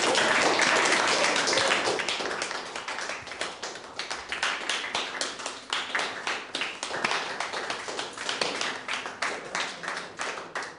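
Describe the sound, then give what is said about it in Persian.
A group claps to praise a pupil after a math lesson. A dense burst of clapping opens, then thins into sharper, separate hand claps that fall into a loose, repeating rhythm. “بعد شما مجید رو تشویق کنید.”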